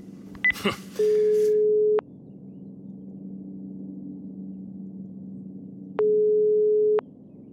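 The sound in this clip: A telephone ringback tone plays while a call is being placed: two steady, mid-pitched one-second tones separated by a long pause, after a few brief clicks, over a low background hum.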